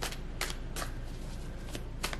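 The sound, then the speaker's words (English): Tarot cards being shuffled by hand. A steady papery riffle is broken by a few sharper bursts of snapping card edges, with no talking. “So I think that's all of the cards that I wanted to pull today. I want to pull one more card.”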